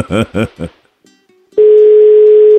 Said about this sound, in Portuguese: Vamos ligar de novo. Isso, cobrada aí.